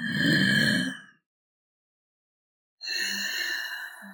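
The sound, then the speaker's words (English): Deep ocean breathing drawn through the back of the throat: two long, breathy, hissing breaths with a throaty rasp, separated by a pause of silence, the second running to the end. “especially when you try to use your deep ocean breath, which sounds something like this.”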